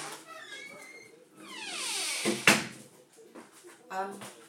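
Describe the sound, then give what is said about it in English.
A kitchen door being shut, with the TV on in the background: a rising squeak as it swings, then a sharp bang at the close. Faint voices murmur underneath. “Hold on, I'm going to shut my kitchen door because the TV's on a bit too”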